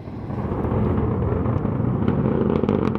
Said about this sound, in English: our NPR colleague Julia Simon was in Southern California watching this SpaceX Falcon 9 rocket launch.